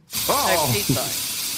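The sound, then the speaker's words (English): Pasta sauce sprays out of a squeeze container in a steady, airy hiss, with a squeaky, voice-like sputter over it during the first half. “Sorry, I just had to give you some more pasta sauce. You couldn't have put it in a jar for me. No. Just had sprayed everywhere.”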